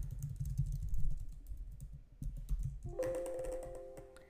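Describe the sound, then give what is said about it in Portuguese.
Keystrokes on a computer keyboard as a username and password are typed, an irregular run of soft clicks. A steady electronic tone joins in during the last second or so. “Bom, só apertar no Start e depois digitar usuário e senha.”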